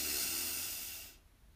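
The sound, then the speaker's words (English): A deep breath drawn in during a guided breathing exercise: a steady, airy inhalation hiss that holds for about a second, then tapers off abruptly into near silence. “And our third breath together and final breath together. Let's breathe in”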